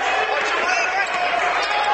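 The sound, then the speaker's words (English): A basketball is dribbled on the court during a high school game, its bounces blended into a dense, steady wash of gym crowd noise. “Dribbling with the basketball for Covington, way out on the floor.”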